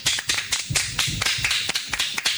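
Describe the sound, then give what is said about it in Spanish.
Sharp applause from a small group welcoming someone, a rapid, uneven run of crisp hand claps at moderate loudness, with no talking over it. “¡Unos aplausos!”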